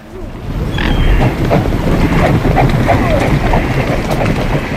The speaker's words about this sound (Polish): Nie, to nie koń, ale też zwierzęta. Jakie? Łabędzie, nagrane tutaj w Sopocie.